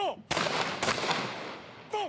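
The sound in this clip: A police guard unit fires a gun salute at a ceremony honouring the fallen of the war of resistance against Japanese aggression. Two sharp, loud shots ring out about half a second apart, each with a fading tail, and brief voices are heard at the start and end.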